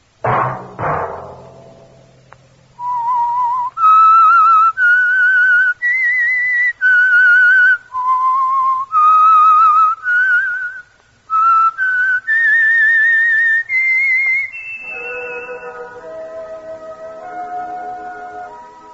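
A whistled theme melody rings out alone after a brief opening thud, a string of clear sustained notes stepping and sliding between pitches, before a lower, softer held chord takes over at the end.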